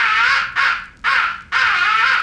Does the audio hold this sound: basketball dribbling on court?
no